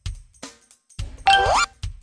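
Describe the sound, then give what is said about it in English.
A bicycle bell rings once, a bright metallic ring with a quick upward warble that lasts under half a second, alone with no talk. “Bicycle. Ring.”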